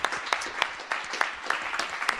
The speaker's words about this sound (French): on peut vous applaudir